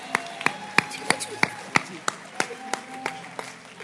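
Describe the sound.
Slow, evenly spaced clapping at a family meeting, sharp individual claps keeping a steady rhythm with a faint background hum between them.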